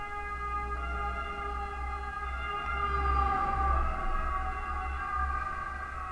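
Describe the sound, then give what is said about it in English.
Ambulance siren passing by, a faint, sustained tonal wail with layered harmonics that swells slightly midway, over a low steady rumble. “there goes an ambulance.”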